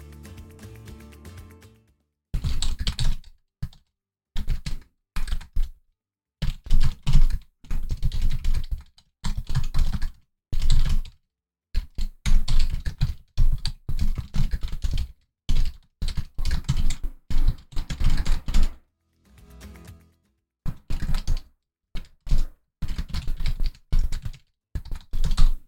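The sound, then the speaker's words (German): Loud typing on a computer keyboard, many sharp clacking keystrokes in quick bursts broken by short pauses, with no talking. “Genauso wie wenn man während einer Folge sehr laut Tippgeräusche hören kann.”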